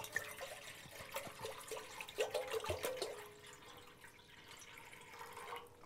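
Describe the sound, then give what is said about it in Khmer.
Water being poured into a pot, one litre, making a steady, fairly quiet splashing trickle with a few scattered drips. “ទឹកនេះយើងដាក់ចំនួន1លីត្រ 1លីត្រ”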